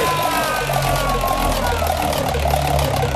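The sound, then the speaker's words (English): A prize wheel spins with a loud, continuous rattling whir of rapid clicks that holds steady for the whole stretch. “Well, let's spin that wheel.”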